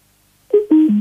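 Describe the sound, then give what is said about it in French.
Three electronic beeps like telephone dialing tones, each stepping lower in pitch; the first is short and the last two are longer and nearly back to back, with no talk. “Ah voilà, il nous refait ses bips comme la dernière fois.”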